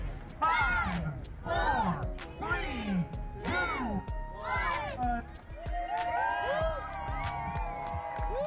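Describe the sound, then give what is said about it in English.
Raucous crowd whoops and shouts at the start of the MR340 paddling race, with several rising and falling yells in succession over a cheering crowd, ending in a more scattered babble of voices. “That is the sound of the raucous scene at the start of this year's MR340, which was held over 3 days in July.”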